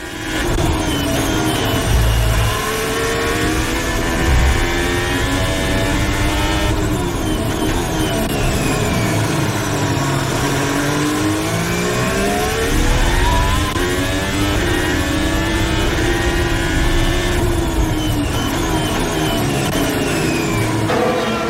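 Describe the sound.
Formula 1 car engine heard onboard Valtteri Bottas's car at the 2022 Bahrain Grand Prix: a loud, continuous high whine whose pitch sweeps up and down as the revs change.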